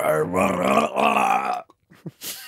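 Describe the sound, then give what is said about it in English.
A long, rough, croaking burp after a fizzy drink, sustained for over a second with a gravelly, voiced quality. It then cuts off into a few faint, brief sounds. “You just burped. Well, yeah, of course I just burped.”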